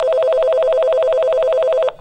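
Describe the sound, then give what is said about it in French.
A telephone rings for an incoming call with a steady, rapidly pulsing electronic trill. The ring holds at an even level for nearly two seconds, then cuts off abruptly. “J'appelle Catherine pour qu'on en discute davantage.”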